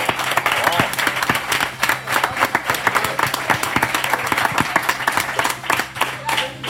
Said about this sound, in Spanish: Un aplauso.